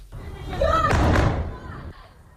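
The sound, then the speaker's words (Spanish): A dull, heavy thud from Russian bombing of Kyiv during a missile wave, a single broad burst swelling and fading over about a second, with a voice heard just before it. “Y este es el sonido de los bombardeos rusos sobre la capital de Ucrania, en Kiev.”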